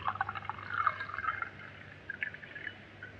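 Pale golden Müller-Thurgau white wine, an Elam Valley 1991, is poured in a soft, steady trickle with a few brighter splashing accents, quiet throughout and with no voices.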